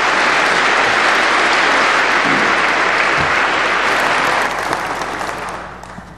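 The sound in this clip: Congregation applause welcoming a preacher to his own pulpit, a loud, dense roar of many clapping hands that holds steady, then gradually thins and fades toward the end.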